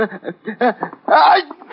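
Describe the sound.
A single loud, breathy sneeze from a person with a cold bursts out partway through, after a few short voiced catches and gasps and followed by brief vocal sounds.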